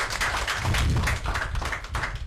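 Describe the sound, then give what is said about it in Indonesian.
An audience claps after a speech at a family-welfare event, a busy, rapid patter of many hands that stays fairly even and moderately loud throughout. “Oke, terima kasih. Mari kita beri aplaus.”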